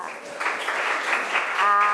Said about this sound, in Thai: จบแล้วค่ะปรบมือให้เพื่อนค่ะ